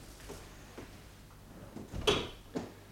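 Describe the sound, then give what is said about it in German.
A door is being closed: a few soft knocks and faint shuffling lead to a sharp, louder thud, then one more brief click. Everything stays quiet, with no talking. “So, die Tür ist zu.”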